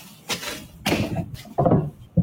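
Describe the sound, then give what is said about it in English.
Wooden shutters being opened in a teen's bedroom, heard as a few irregular knocks and scraping rattles of wood, fairly loud and spaced out over a couple of seconds. “Open the curtains 30%, just so you have enough access to the shutters. Now, open the shutters.”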